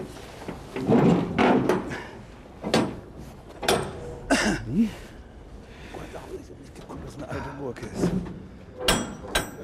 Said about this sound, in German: Mit einem Bolzenschneider und einiger Mühe öffnet Zollbetriebsinspektor Jürgens Krei den rostroten 77 Kubikmeter Container.